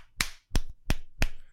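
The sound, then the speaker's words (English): Fake money is slapped into a hand four times, each a sharp, crisp smack at an even, quick rhythm with short silences between. “That's me putting fake money in my hand, not masturbating, and definitely not clapping.”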